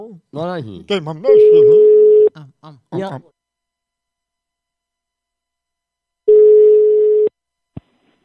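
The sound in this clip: A telephone ringback tone sounds while a call is placed. Two steady, low-pitched one-second tones are separated by about four seconds of silence. A voice speaks just before the first tone, and a brief click follows near the end.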